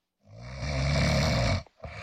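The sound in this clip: A single loud, rough snore drags on for over a second with a deep rattling tone, then breaks off into a couple of short breathy sounds; no one talks.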